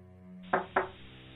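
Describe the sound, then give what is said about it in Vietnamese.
Two sharp, dull knocks on an earthen floor, about a quarter second apart, over a low, steady sustained background tone. “Rồi bất ngờ có tiếng gõ nền xuống nền đất, làm cho Chiến lờ mờ tỉnh dậy. Anh đưa hai tay dụi mắt. Tiếng gì vậy hả? Tiếng gõ vẫn cứ vang lên đều đặn.”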